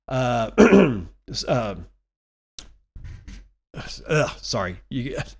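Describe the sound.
Throat clearing, a few rough, gravelly bursts with voiced, groaning tones, coming in short clusters separated by brief pauses, fairly loud and with no speech.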